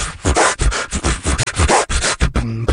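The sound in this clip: Human beatboxer from the Baltimore area imitating turntable scratching with the voice: rapid, stuttering scratch strokes in a tight rhythm, loud and alone, ending in a short buzzy, tonal vocal scrape.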